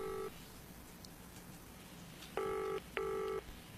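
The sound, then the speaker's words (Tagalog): Electronic phone tones as a call is dialed and rings on loudspeaker: one short tone, a pause, then two steady tones close together over faint background hiss. “Relax bala, eh, tawagan ko si Claire. Loudspeaker na yun, ha? Kung makasabat na siya.”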